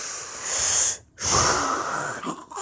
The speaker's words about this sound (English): Okay, so deep breath.